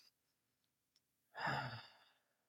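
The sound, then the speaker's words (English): A slow breathing demonstration: one long, breathy exhale, soft and sigh-like, swells then gradually fades over about a second, with only faint traces of breath before it. “I was breathing in. I'll give you an example. I hope your listeners can hear, and it would be like,”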